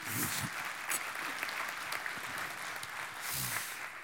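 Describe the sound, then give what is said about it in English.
An audience applauds to welcome a visiting pastor, dense clapping running steadily through the whole stretch, with a few sharper swells standing out along the way. “Give him a hand. Welcome him today.”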